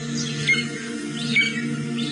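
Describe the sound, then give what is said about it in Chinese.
Crested ibis calls: a few faint, thin, harsh chirps spaced apart over a steady low hum. “这是朱鹮的声音”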